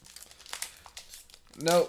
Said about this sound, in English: Then I'm going to go ahead and open up this pack of cards. We got our Panini 2022.